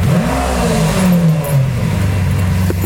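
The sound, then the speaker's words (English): A car engine revs as the driver pulls away. A loud droning tone climbs briefly, then settles lower and steadier, with light mechanical clatter. “give me gas. No problem, buddy. Okay. All right, off we go. I haven't driven this in a second.”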